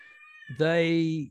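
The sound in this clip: A pet cat gives a single loud, drawn-out meow lasting about half a second, steady in pitch and heard on its own.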